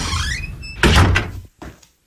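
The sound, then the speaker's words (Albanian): A door being opened: a solid clunk of the door, then a shorter, quieter knock after a brief gap, with no voices. “Jemi ne. Hapeni derën.”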